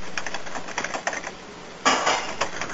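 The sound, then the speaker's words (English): Typing on a computer keyboard: quick, irregular runs of light clicks, with a louder, denser flurry of keystrokes near the end. “Type that in quickly.”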